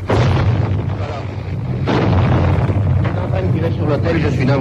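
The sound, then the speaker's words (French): Dense gunfire and blasts from a tank firing grapeshot during street fighting in Budapest, with bullets cracking against a wall. The roar of bursts and booms runs almost without a break, grows louder after a short dip, and a voice is heard over it. “Il tire à la mitraille, vous entendez les balles qui claquent contre le mur.”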